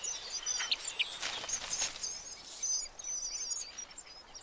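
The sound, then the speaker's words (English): Three nine-day-old reed warbler chicks beg to be fed in the nest, making a faint, continuous stream of thin, high-pitched chirps and squeaks. “The three chicks take up all the room in the nest. These reed warbler chicks are 9 days old and demand to be fed whenever there's daylight.”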